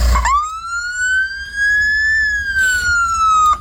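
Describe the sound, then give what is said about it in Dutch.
A Norwegian ambulance siren sounds as one long, loud wail. It starts with a short blip, then climbs slowly and smoothly in pitch, eases slightly lower toward the end, and carries bright overtones over a low rumble. “Dit is het geluid van een Noorse ambulance. Oh ja, dat had hij helemaal speciaal geregeld dat hij even de sirene en zo aan mocht zetten.”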